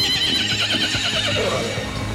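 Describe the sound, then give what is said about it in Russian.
Horses neigh as six of them draw a golden carriage, a long wavering whinny running through the whole clip. “Тут подлетела к царскому крыльцу коляска золоченая, в 6 лошадей запряженная.”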